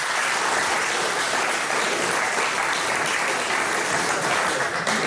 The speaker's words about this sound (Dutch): Dus ik zou zeggen, geef me even een applaus.